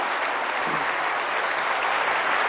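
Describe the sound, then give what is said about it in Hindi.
Audience applause for volunteers serving behind the scenes, a thick, even wash of many hands clapping that holds steady and loud from start to finish. “एक बार जोर से दिल से उनके लिए तालियां बजाइए, right? और आपकी तालियां,”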